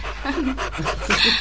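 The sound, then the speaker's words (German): An excited dog pants rapidly and loudly in a steady run of breathy bursts, with faint whimpering woven in. “Also, wenn ich es nicht besser wüsste, würde ich glauben, der Hund hat die Tollwut.”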